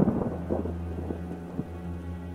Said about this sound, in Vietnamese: Ngoài tiếng mưa ngoài kia mỗi lúc một xối xả và tiếng sấm nổ đì đùng